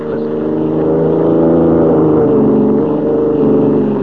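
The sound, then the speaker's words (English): A car being driven, used as a radio drama sound effect: a steady, continuous engine drone with a low harmonic hum that holds an even loudness throughout, with no talking. “we join White and Lois, who are driving alone to see the governor in the state capital 140 miles away.”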